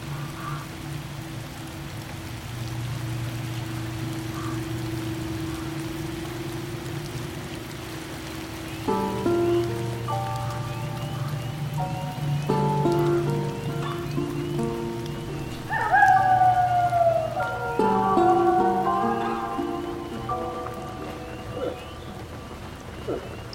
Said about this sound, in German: Guck mal, es regnet. Jetzt regnet es. Hier, tatsächlich. Guck mal. Regen.